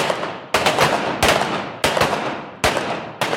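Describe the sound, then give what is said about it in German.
Gunshots from a pistol during duel target-shooting training: five sharp, loud reports at a steady pace, each followed by a short ringing decay. “Duell heißt, die Waffe wird zwischen den Schüssen nicht gesenkt und die Zielscheibe wird gewechselt.”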